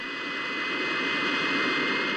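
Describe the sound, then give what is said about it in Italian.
Steady drone of a private twin-engine airplane in flight after leaving Catania airport, a faint, even hum with tonal whine throughout and no voices. “era salito all'aeroporto di Catania sul bimotore personale insieme col pilota Dino Bertuzzi”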